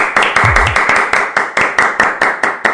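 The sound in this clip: Hands clap for a birthday: loud, steady, rhythmic clapping of about a dozen even, sharp claps in quick succession.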